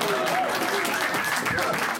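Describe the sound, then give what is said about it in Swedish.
Warm audience applause at a stand-up comedy show in a packed basement venue in central Malmö: dense, steady clapping from the crowd, fairly loud throughout, with a voice faintly heard over it. “Låt oss välkomna Mackan in här med en riktigt stor och varm applåd.”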